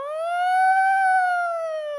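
A megaphone's siren setting gives one continuous electronic wail that rises slowly and falls back over about two seconds, loud and bright with steady volume.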